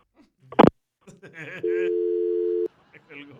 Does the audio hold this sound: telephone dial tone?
yes